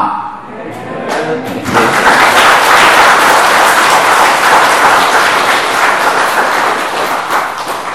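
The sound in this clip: Audience applause at a Zen teacher's talk: dense clapping that swells within the first couple of seconds, then continues steadily loud to the end.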